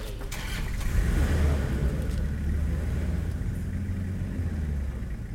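A truck engine rumbles as the vehicle pulls away, loaded with supplies and recording gear. The deep, steady drone holds at a fairly even level for the whole stretch, with no voices over it.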